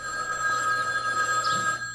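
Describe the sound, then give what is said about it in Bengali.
A telephone ringing with a bright, steady electronic ring that holds unbroken throughout, alone with no voices. “10 মিনিটের মধ্যে ফোনটা বেজে উঠল।”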